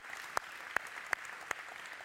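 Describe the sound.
A church audience applauds to welcome a family. The faint, steady wash of clapping is marked by a few sharper claps falling at regular intervals.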